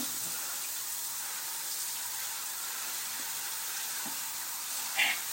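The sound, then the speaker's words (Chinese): Faint, steady hiss of shower water running in a bathroom, a continuous soft spray with little change from start to finish. “我在洗手间，我在浴室里洗澡”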